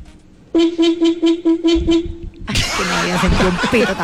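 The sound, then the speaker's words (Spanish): A car horn honks in a quick, loud series of short, evenly spaced toots on one steady pitch, followed by a burst of louder, rougher noise. “Mi amor, ese pito está bueno,”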